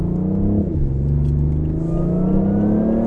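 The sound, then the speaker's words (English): Engine of a four-cylinder Ford Mustang accelerating hard, a loud, steady harmonic drone whose pitch climbs gradually throughout, with no voices. “So you can hear the electric motor kick in as well. It helps it.”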